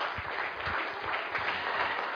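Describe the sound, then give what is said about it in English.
An audience claps to welcome a speaker onto a stage, a steady patter of many hands throughout. “Let us welcome her with a big hand.”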